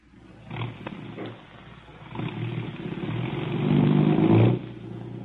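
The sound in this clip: A car engine in an old police radio drama roars and revs as detectives set off, its muffled drone building steadily in loudness to a peak near the end before easing back down.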